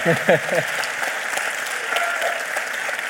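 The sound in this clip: A live audience applauds at the Forum des Images, with steady, dense clapping that continues without a break for about three seconds.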